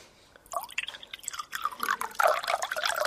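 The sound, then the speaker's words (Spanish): Water poured into a glass: after a quiet start, a bubbly, gurgling splash of liquid begins and continues unevenly to the end, with wet dripping and sloshing textures and no talk. “Voy a hacer mi momento de agua, de echarme un vaso de agua.”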